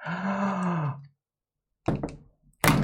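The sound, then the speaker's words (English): A wrestler is powerbombed through a table: a groaning voice falls in pitch and stops, a short silence follows, then two heavy, crashing thumps land. “I'm going through the table. Ugh. Oh, no, what's going to happen? Oh, no, no, not a power bomb. Oh, no. Yep, there it is.”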